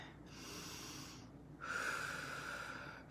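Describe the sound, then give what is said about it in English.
Two long, slow, deep breaths, faint and airy. The second is louder and carries a thin whistling tone. “Deep breathe for yourself. Deep breathe for the world.”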